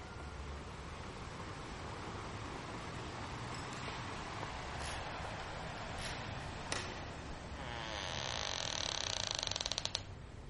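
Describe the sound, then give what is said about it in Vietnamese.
Door hinges creak as a master key is turned, with a few sharp metallic clicks over steady noise and a drawn-out grinding creak that swells toward the end. “Anh Đào tra chìa khóa tổng, tiếng bản lề cọt kẹt phát ra làm người ta sởn hết da gà”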